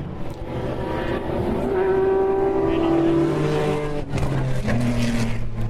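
Race car engines roar on the track at the Le Mans race in 2010. A loud, continuous drone rises and falls in pitch as the cars rev and shift.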